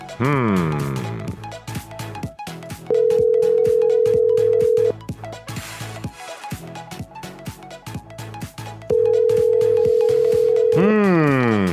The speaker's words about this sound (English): It's just ringing forever.